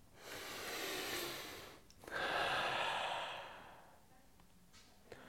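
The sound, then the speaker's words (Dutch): Deep, light breathing through the nose, heard as two long airy breaths, each swelling and fading, with a brief pause between them and no talk. “Adem door je neus. Diep, maar toch lichtjes.”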